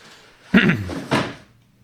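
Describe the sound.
A cupboard door in a room is opened or closed, giving two soft wooden knocks about half a second apart against a quiet background.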